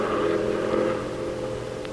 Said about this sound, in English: Here comes a car.